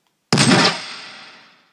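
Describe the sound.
A single rifle gunshot: one sharp, loud crack that breaks the silence and then fades in a long, smooth decaying tail, heard alone.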